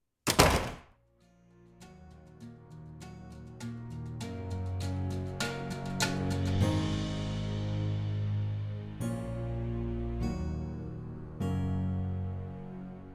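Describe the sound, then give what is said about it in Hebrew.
A house door is slammed shut as a man leaves: one loud, heavy thunk at the start, then music plays on alone. “אחר כך הוא יצא מהבית וסגר אחריו את הדלת בטריקה.”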